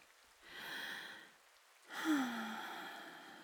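A person taking a deep breath: two soft, breathy rushes of air, the second longer than the first, with a faint sigh-like tone inside it, all quiet.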